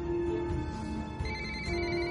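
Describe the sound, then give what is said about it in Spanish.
A mobile phone ringtone plays in an SUV as a woman drives, with sustained electronic tones that shift to a new, higher melody part midway and stay steady and clear throughout. “Responde la llamada de Samuel”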